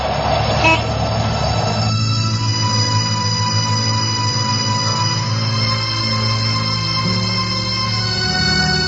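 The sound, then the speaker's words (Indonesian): A minibus (angkot) engine is started and keeps running with a loud, steady, low rumbling hum whose tone shifts once early on, then holds even. “Rusdi seraya menghidupkan mesin mobil angkotnya”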